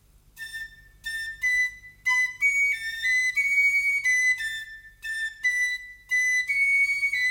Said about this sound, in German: Sie spitzte die Lippen, an die sie die Schlüsselöffnung hielt, und pfiff ein Liedchen.